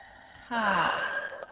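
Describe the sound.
A deep breath drawn in and exhaled during a guided meditation, heard as one long, breathy, slightly wheezy rush of air after a quiet start.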